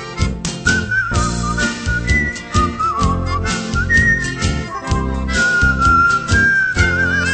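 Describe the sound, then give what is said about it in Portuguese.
A person whistles a melody over a busy instrumental backing with a steady beat. The bright, sliding whistled line carries clearly above the accompaniment throughout. “Assobiando sempre esta melodia, o passageiro entra no meu bom humor.”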